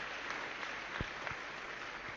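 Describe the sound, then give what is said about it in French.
A church audience claps together in worship, a steady, faint patter of many hands that holds evenly throughout. “Est-ce que nous pouvons acclamer le Seigneur? Can we clap?”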